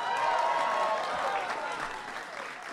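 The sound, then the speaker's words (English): An audience applauds the Alabama Crimson Tide, the national champions, at the White House: steady, dense clapping that stays fairly even and eases off slightly toward the end. “So let's give it up for the national champs, the Alabama Crimson Tide.”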